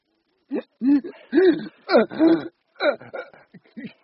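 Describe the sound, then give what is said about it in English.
A man short of breath makes laboured, wheezing breaths: a series of strained, voiced gasps with short pauses between them. “Can't get my breath. Try straightening your upper body. Above all, do not panic.”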